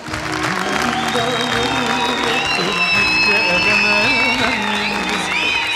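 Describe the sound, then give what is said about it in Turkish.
Audience applause for the accompanying musicians after a folk song performance, with steady clapping and crowd noise beneath a speaking voice and some sustained tonal notes. “Çok kıymetli arkadaşlarım eşlik ettiler, söylediler aynı zamanda. Alkış onlara.”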